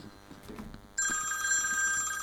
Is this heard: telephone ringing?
yes